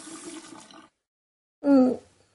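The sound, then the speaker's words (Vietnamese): Water runs from a tap for under a second and stops. After a short pause comes one louder, brief burst of water as it is splashed onto a face. “mở vòi nước, hất nước lên mặt lau nước mắt.”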